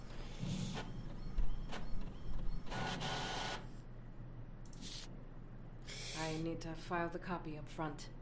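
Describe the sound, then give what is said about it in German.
A printer prints with mechanical whirring, clicking and ratcheting bursts of varying length. Voices can be heard briefly toward the end. “So, dann druck mal den Scheiß aus.”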